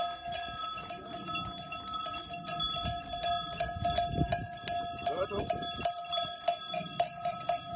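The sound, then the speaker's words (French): Sheep bells tinkle as a flock of ewes walks through town streets, many small bells ringing continuously in a bright, uneven jingle over low shuffling. “ce tintement de clochettes, c'est le bruit de vos brebis le jour de la rentrée dans les rues de la ville où vous vivez.”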